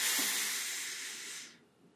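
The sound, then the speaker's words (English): A long, airy breath out during a guided calming breathing exercise. It is a broad, steady hiss that fades away after about one and a half seconds, with no voice present. “Breathe in with me and breathe out.”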